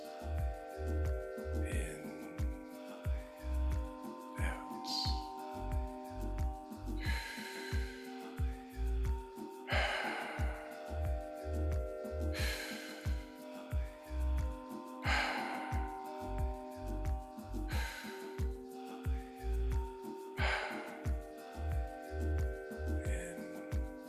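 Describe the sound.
Slow, guided breathing in and out, soft breaths rising and falling at a steady, unhurried pace over a musical bed with a regular low pulse.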